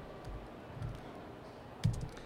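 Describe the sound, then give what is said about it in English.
Typing on a computer keyboard to enter an address into an online map search: a few soft, irregular key clicks over steady background noise. “let me go onto Google Maps and type in AS in the wrong place.”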